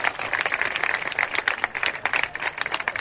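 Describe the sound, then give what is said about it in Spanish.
A football stadium crowd applauds a substituted player leaving the pitch, with many individual claps forming a lively, uneven patter that holds steady throughout. “Se marcha entre aplausos”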